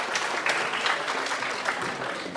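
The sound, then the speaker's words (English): Applause from an audience greeting a volunteer brought on stage for a makeover: dense, steady clapping that keeps going without a break. “Give him a hand.”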